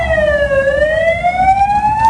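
An emergency vehicle siren wails through the streets of Ceuta during a violent night of unrest. The loud, steady tone dips in pitch, then slowly climbs again.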